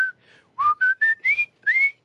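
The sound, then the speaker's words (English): Human whistling: a short tune of several bright notes in quick succession, some sliding upward in pitch, clear and alone. “I'm trying to teach them all to whistle because I saw a bridge over the river Kwai.”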